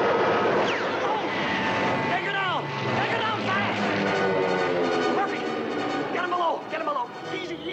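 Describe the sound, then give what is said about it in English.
A jet attack plane swoops low over a submarine's deck and conning tower with a loud, sustained engine roar that sweeps in pitch, while voices shout beneath it. “The plane swoops in low, firing a hail of bullets over the deck and conning tower,”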